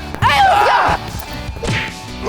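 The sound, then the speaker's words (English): A balloon is struck hard but does not pop, giving one sharp smack near the start. Excited shouting voices follow. “Yes, I hit! What? I hit it! It didn't break! It's not popping!”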